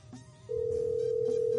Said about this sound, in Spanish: Si no contesta, vamos a escoger a alguien más. Ya está sonando.